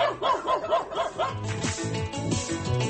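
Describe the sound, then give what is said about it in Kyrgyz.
Stray dogs bark in the streets of Bishkek: several quick, rhythmic barks, then a denser, noisier stretch of overlapping barking and yelping. “Бишкекте жолбун иттер көбөйдү.”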